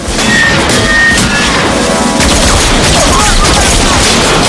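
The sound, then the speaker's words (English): Gunfire in a gun battle on a road beside a wrecked van, two men shooting back at a group of gunmen; dense, loud, continuous shots and crashes with no pause. “Willis and Axel return fire, and a gun battle ensues with Prizer's men.”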